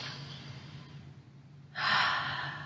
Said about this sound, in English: Let's take a breath first.